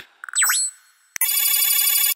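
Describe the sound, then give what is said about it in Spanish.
An incoming phone call rings. A few short electronic chirps and a swooping tone come first, then a brief pause and a click, and then a bright, sustained warbling ring that holds steady to the end. “Llamada entrante.”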